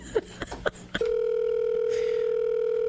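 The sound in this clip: A phone tone from an outgoing call: a few short blips, then a steady, loud, unbroken tone that holds to the end.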